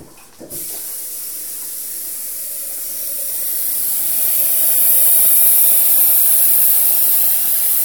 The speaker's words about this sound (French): Et donc là, vous allez faire chauffer de l'eau chaude.